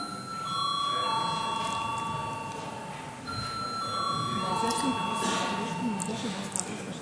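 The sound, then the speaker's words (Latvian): A voting bell rings in a parliament chamber as steady electronic tones in two long stretches, each holding a pair of overlapping pitches. A constant murmur of voices runs underneath. “Lūdzu zvanu.”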